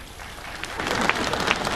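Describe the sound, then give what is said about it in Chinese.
Audience applause at a live stage comedy performance: dense, continuous clapping that starts softer and swells fuller and louder, with no break. “你对得起这么热情的观众吗？你对得起这么热烈的掌声吗？”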